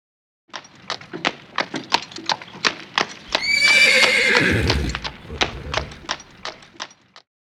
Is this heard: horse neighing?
yes